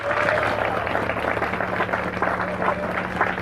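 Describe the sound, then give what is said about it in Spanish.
Applause from a church audience fills the whole stretch as a steady, dense patter of clapping, with a few voices mixed in underneath. “Al Señor ese aplauso, déselo, hermano.”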